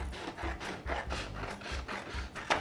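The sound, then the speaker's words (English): A printed paper template has its excess trimmed from the top, heard as a quiet, steady series of rhythmic rasping cutting strokes with no voices. “I have it here, and the next thing I'm gonna do is I'm gonna trim at the top.”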